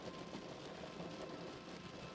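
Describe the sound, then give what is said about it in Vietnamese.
Rain falling outside, a faint, steady and even hiss of drops that continues without a break, with no talk. “Ngoài trời mưa vẫn chưa ngớt, từng đợt gió lạnh thổi từ ngoài vào phòng.”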